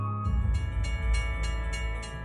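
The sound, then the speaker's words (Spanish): A train rolls past with a rapid, evenly spaced series of clacks over a loud, steady low rumble, its tonal hum running underneath throughout. “Si el tren está en marcha, no camine junto a él y nunca pase por debajo o entre los vagones.”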